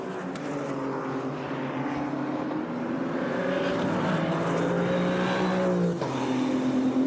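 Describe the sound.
GT3 race cars roar past at top speed during a race, a loud, sustained engine drone with shifting tones throughout and a clear drop in pitch near the end.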